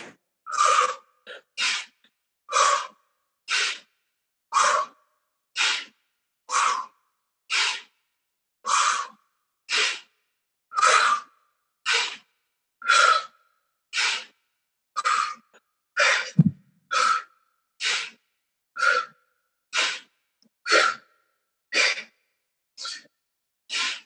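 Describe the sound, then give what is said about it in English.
Deep breathing drawn in through the mouth and pushed out through the nose repeats as many even, soft breaths in a steady rhythm, with no talking. “So inhaling through the mouth, open mouth, belly goes out. Exhale through the nose, belly goes in. We'll do that 10 times and then hold it at the top.”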